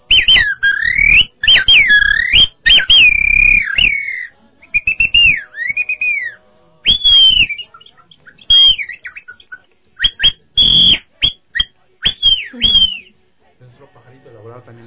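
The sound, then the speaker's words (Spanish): A bamboo bird whistle, a shamanic flute used to imitate jungle animals, sounds many loud, high warbling chirps and trills in short bursts separated by brief gaps. “Tenemos otro instrumento que es un pajarito.”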